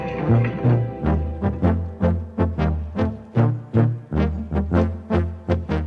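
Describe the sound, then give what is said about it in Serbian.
Brass trumpets playing, heralding the trumpet players' gathering at Guča, a run of loud, punchy repeated notes in a bouncing rhythm, each swelling and cutting off sharply, with no talk over them. “siguran sam da i ove trube koje upravo čujemo nagoveštavaju da nam se približava sabor trubača u Guči”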